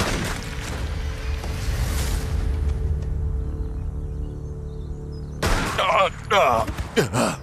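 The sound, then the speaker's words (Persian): A gunshot in an audio drama: a loud, broad booming burst of noise fades over about two seconds into a low, sustained drone, and then people begin talking near the end. “تکون نخور. تو دیگه از کجا پیدا شد؟ این چه کاری بود؟ چرا به من شلیک کردی؟”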